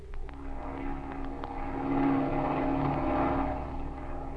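A propeller airplane engine drones steadily as the plane circles in flight. The low, continuous hum swells slightly louder midway and then eases back, with no voices over it.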